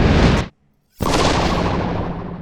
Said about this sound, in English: Suddenly, the room exploded in a blinding burst of energy, and everything in it dissolved.